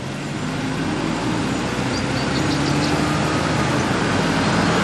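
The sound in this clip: A car drives off with an even, continuous hum of engine and road noise, fairly quiet and steady throughout, with no talk.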